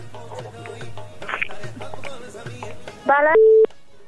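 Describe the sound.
A telephone line connecting for a call-in: a voice talks at first, then a short, steady electronic tone sounds loudly near the end.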